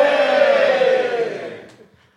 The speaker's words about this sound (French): Et je vais faire genre un geste vers vous. Vous allez faire ouais, genre on est trop content d'être là.